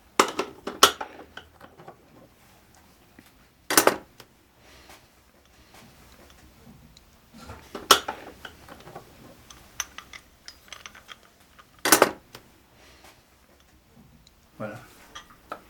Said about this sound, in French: il y a deux vis à enlever